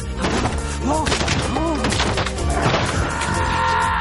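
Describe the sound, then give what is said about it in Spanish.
Tiger claws smash wooden stilts in an animated prehistoric adventure, giving a few sharp crashing thwacks and thuds. They are partly buried under loud, dense music and sweeping effects. “Golpea al tigre con los zancos. Los zarpazos del tigre reducen los zancos y Grug baja.”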